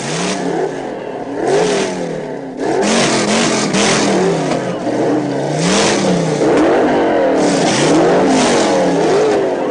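Drag race cars in a heads-up race launch off the line at the green light and accelerate through the gears, a loud sustained engine roar whose pitch climbs again and again with each shift.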